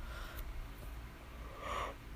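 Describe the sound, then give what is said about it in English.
A person yawns, a single breathy, airy exhale that swells near the end of the short moment, faint and with no talk over it. “And I'm yawning again. Oh my goodness.”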